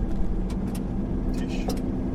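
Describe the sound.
Steady low rumble of a car driving along a road toward a radio astronomy observatory, loud and unbroken throughout, with a few faint brief higher sounds passing over the road noise.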